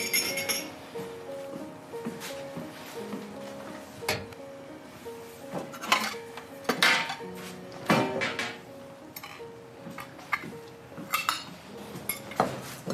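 Plates and dishes clink inside a cupboard in a run of many irregular, sharp clinks and knocks, some louder than others, over a low background.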